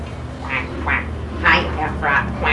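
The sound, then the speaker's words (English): A human voice imitates a duck, giving several short, nasal quacks in quick succession. Each is a bright burst that varies slightly in loudness. “Do you know the ducky goes quack,”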